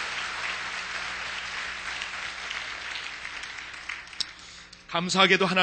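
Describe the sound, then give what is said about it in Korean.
A church audience applauds to encourage its children during a bilingual service. The clapping is dense and steady, tapers off toward the end, and then a voice starts speaking. “그리고 한번 우리 박수로 다시 한번 격려하겠습니다.”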